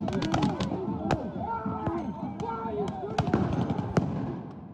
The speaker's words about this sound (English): So they're throwing tear gas grenades, possibly flashbangs, I can't really tell.